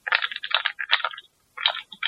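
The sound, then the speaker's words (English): A single last mint rattles inside a plastic Tic Tac box, giving bursts of rapid, bright clicking with a short pause before the final shakes; no voices. “Is he playing Yahtzee? Oh, sorry about that, guys. I just had to finish off the last tic-tac in the box there.”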